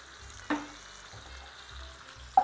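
Food frying in olive oil with coarse salt gives a faint, steady sizzling hiss over a low hum, with two brief sharp taps, one early and one at the very end.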